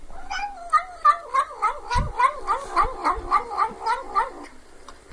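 A cat trills while eating, producing a quick series of many warbling chirps that climb slightly in pitch. The chirps are loud and heard alone, with a few soft low thumps underneath.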